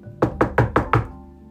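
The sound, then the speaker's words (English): Five firm knocks strike a door at an even, steady pace. Each one is sharp and hollow, and they sound alone with no voices. “So I put my backpack down and walked across the street and knocked on her door.”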